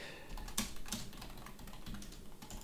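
Typing on a computer keyboard gives a few faint, irregular key clicks against a quiet, steady background.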